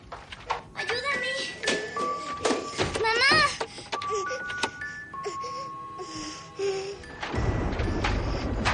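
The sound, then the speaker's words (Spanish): A musical stuffed toy drops to the floor and its music switches on, a bright tinkling chime melody of clear high notes playing under a speaking voice. “El peluche cae al suelo y la música se activa.”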